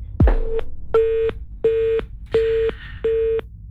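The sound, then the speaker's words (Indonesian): Telephone busy tone after a call disconnects: five evenly spaced, steady mid-pitched beeps with short silent gaps between them, preceded by a brief click. “teleponnya terputus dari Ustaz Lutfi”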